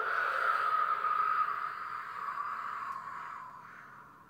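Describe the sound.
A long, hard breath blown out through the mouth, an airy, fairly faint hiss that holds steady and then slowly fades over about four seconds, with no talk.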